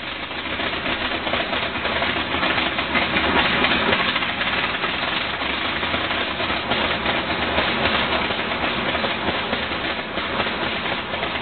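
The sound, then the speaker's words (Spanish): Engine of a replica of the early Wright Flyer aircraft, a rough, rattling, continuous mechanical drone with a fast, knocking pulse that runs at a steady loudness for about eleven seconds without talk. “el sonido que acaban de escuchar es el de la réplica del Flyer que se conserva en el Museo Nacional del Aire y el Espacio”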